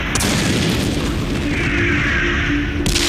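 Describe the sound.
Large-scale bombing explosions before a 1944 night tank offensive in Normandy make a dense, continuous low rumbling roar. The booms merge into a sustained thunder with no distinct separate blasts.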